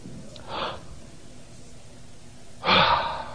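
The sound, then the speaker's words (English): A deep breath let out: a short, soft breath, then after a pause a loud, rushing exhale that fades out. “Big deep breath. Boy, just let it out.”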